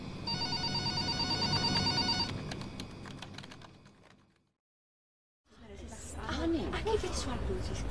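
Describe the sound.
A telephone rings with a steady electronic trill for about two seconds, then gives way to rustling noise, a short silence and further muffled sounds.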